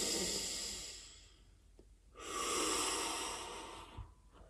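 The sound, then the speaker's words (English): Deep, slow breathing to ease holiday stress: two long, airy breaths swell and fade, fairly loud and with no talk over them. “That's right. Just breathe. Breathe it in.”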